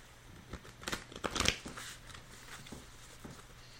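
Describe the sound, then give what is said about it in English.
Soft rustling and light taps from cards being drawn and laid out during a card reading, a faint cluster of brief handling sounds in the first half that fades to near quiet. “So let's throw a few more clarification cards here.”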